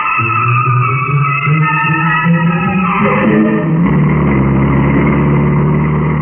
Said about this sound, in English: I'll drive down this road